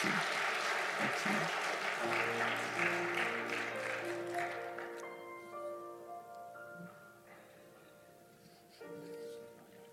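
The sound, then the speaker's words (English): A church audience gives applause as a clap offering. The dense clapping gradually fades over several seconds as sustained musical tones carry on beneath it and then remain nearly alone. “Would you praise God with a clap offering today?”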